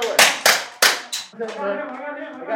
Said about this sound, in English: These Texas cops are running through active shooter scenarios in a vacant building near Dallas. They're firing simulated ammunition, trying to find and stop the killer, even as wounded role players cry for help.